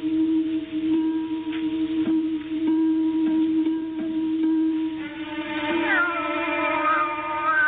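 A cat meows a few times, its calls bending in pitch, over a steady tonal background.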